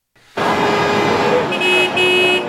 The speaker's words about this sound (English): Sounds of horns blared all over downtown Ottawa on a frigid night.